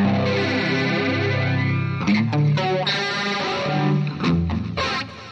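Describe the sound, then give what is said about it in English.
A heavily distorted electric guitar played through a flanger pedal, its sweeping, swirling chorus-like whoosh running over sustained chords. The playing is loud and continuous, with brief chopped breaks near the middle and toward the end. “He used this flanger all over that record. It's almost on every song. Man, I'm going to have to keep this thing on my board now.”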